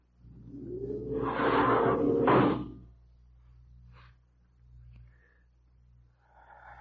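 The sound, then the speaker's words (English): A spaceship's outer airlock door opening gives a loud, sustained hissing whoosh for a couple of seconds, then fades to faint clicks and soft rustling noises. “open the outer airlock.”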